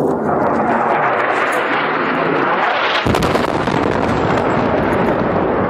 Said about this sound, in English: Airstrikes like this one are a daily event in Yemen as the Saudi-led war against Yemen seems to be escalating.